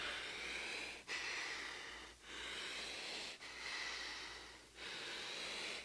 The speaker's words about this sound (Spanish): Respira profundo, hijo.